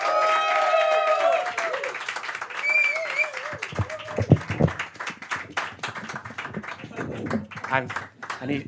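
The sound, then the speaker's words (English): Applause and clapping from an audience as a storyteller is welcomed onto the stage: a brief voiced sound opens, then dense, uneven clapping fills the rest and continues steadily to the end. “Put your hands together, everybody, for Tim Ralphs!”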